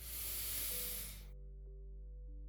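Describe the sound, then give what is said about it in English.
A deep inhale through the nose during a guided breathing exercise: a steady, airy hiss lasting just over a second that stops abruptly, leaving a low, steady hum. “So take a nice deep inhale through your nose.”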